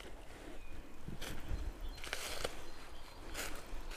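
Footsteps of a person walking through a forest make a few soft, irregular crunching steps. They are faint and sit over a constant, low outdoor hiss.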